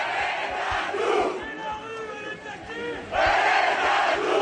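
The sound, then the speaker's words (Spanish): A street protest crowd in France, demonstrating against a measure passed by decree: many voices chant and shout together, loud and sustained throughout, swelling into a stronger surge near the end. “esto ha desatado en el país, en Francia, una oleada de protestas que se ha recrudecido en las últimas semanas y que nos deja sonidos como este.”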